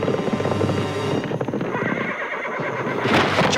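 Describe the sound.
A horse neighs loudly in a long, wavering whinny, with clattering noise mixed in, as the horse lands in a whitewater raft.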